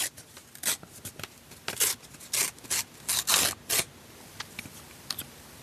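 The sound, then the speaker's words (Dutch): A paper envelope is picked up and opened, making a series of short, dry rustling and tearing scrapes of varying loudness, with quieter handling noise between them. “Dan pak ik de envelop en dan zit daar een verrassende vraag in.”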